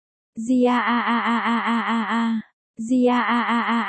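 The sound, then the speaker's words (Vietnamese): Loud groaning from a creature inside a wrapped bundle: two long moans, each with a wavering, pulsing pitch, separated by a brief silence. The second moan runs to the end. “có vật gì đó cựa quậy mạnh mẽ và phát ra những tiếng kêu rên.”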